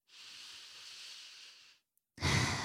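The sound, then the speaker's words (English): A deep breath taken in a quiet pause: a long, airy inhale of over a second, then a short silence and the start of a louder, breathy exhale, with no talking. “can I ask you guys to take a collective deep breath with me?”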